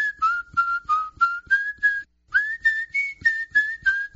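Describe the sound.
A man whistles a lively, rhythmic tune of many short, clear, high notes in a steady bouncing pattern, with one brief pause midway and no other sounds.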